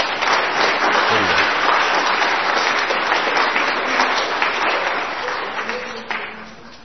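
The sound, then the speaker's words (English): A church audience applauds during a worship service, a dense, sustained clatter of many clapping hands that holds steady and then thins out slightly toward the end. “So, anyway, let's give them a hand.”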